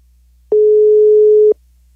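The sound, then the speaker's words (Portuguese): Ringing tone of an outgoing telephone call: a single loud, steady mid-pitched tone lasting about one second, alone, with silence before and after it. “E agora? Tá chamando, não pode falar alô.”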